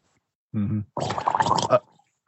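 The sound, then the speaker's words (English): A tabletop role-playing game player imitates a bleeding character's gargle with his voice: a short voiced grunt, then a longer, rough, bubbling gurgle that ends in a louder burst. “all you guys see and hear is me give a thumbs up and gargle.”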